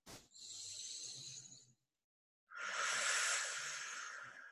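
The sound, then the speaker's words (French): A deep breath in and out during a breathing exercise, heard as two long, airy rushes of breath separated by a short silent pause, with no talk over them. “On reprend une grande inspire, expire.”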